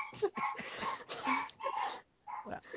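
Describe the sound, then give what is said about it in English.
A small dog whimpers and barks in a run of short, high yips and whines, fairly faint, broken by a brief pause before a final couple of yelps. “Apparently there's a small dog that's joined us.”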